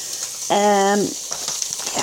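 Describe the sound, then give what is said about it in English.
Fish frying in a pan gives a steady, hissing sizzle with light crackles that continue throughout. “Okay, I'm back again. I've got the fish on.”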